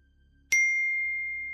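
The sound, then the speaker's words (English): A phone notification ping rings once, a single clear, high-pitched ding that strikes sharply and then hangs in a long, slowly fading tone against near silence. “When I sat back down, my phone pinged again.”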